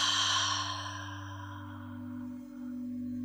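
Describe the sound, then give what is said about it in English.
A breathy exhale during a breathing exercise, made with a slight restriction at the back of the throat as if fogging a mirror. One loud rush of air fades over about a second and a half above a steady low hum. “we're going to exhale, but notice I'm making a noise. So there's a slight restriction at the back of my throat. Like I'm trying to fog up a mirror.”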